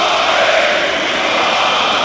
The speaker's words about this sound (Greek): και τώρα το κοινό βρίζει τον Παπαπέτρου, τον διαιτητή, που πήρε αυτό το σφύριγμα.